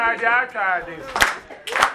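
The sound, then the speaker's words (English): A voice talks briefly, then two sharp, separate hand claps ring out about half a second apart. “You're gonna say, clap. You're gonna just clap your hands.”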